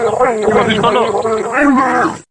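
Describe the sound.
A human voice imitates a penguin with a drawn-out, groaning call that wavers up and down in pitch. It sounds continuously for about two seconds and then cuts off.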